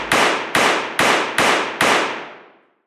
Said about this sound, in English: produces a .32-caliber handgun, and fires six quick shots in his direction.